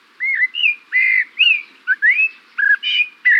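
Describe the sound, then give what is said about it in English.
A Eurasian blackbird sings a loud, clear song of fluting, whistled notes. The short phrases come in quick succession, some gliding up or down and some warbled, with nothing else heard. “This bird song seems familiar, intriguing. It's the song of the Eurasian blackbird.”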